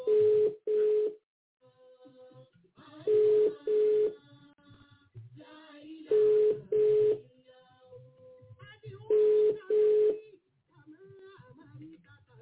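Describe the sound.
A WhatsApp call reconnecting tone plays as a repeating double beep. Four pairs of steady, mid-pitched beeps arrive about three seconds apart, with faint low background sounds in the gaps.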